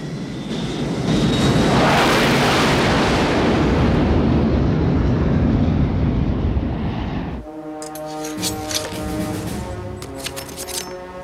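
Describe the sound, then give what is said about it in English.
An airplane takes off with a loud, sustained engine roar that swells, then cuts off abruptly into a quieter tonal passage. “Now the plane takes off.”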